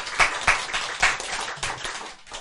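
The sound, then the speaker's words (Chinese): Scattered hand claps from listeners at a Buddhist teaching. There are a few sharp, separate hits at irregular intervals rather than a sustained round, and they are fairly faint. “这样赞不赞？赞哈，好，拍手，”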